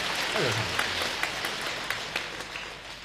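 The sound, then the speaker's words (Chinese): Audience applause at a comic crosstalk stage performance, fairly thin and scattered, with a few sharper claps standing out over a soft steady patter and a brief voice near the start. “您再给我对付点掌声得了。”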